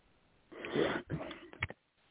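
Loud, heavy Darth Vader-like breathing close to a microphone: two long rasping breaths followed by a shorter, sharper one, then quiet.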